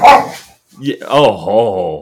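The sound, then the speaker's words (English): Dogs barking: one loud, short bark, a brief pause, then higher, tonal yelping cries that stretch over the next second or so. “pups in the crowd. Oh, yeah. Sorry. Excuse the dogs there.”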